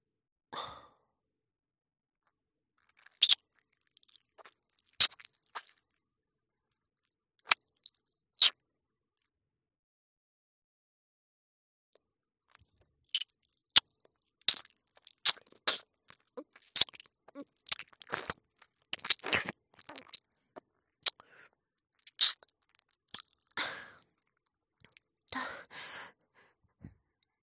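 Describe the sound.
Wet ASMR ear-licking and mouth sounds, heard as soft, quiet clicks and smacks with no talk. They come sparsely at first, then grow denser and more continuous through the second half.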